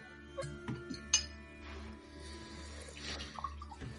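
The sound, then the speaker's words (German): A few faint, irregular clinks of round tokens rattling inside a sack as it is shaken, with quiet background hum between the small metallic taps. “dann schüttel ich den Sack”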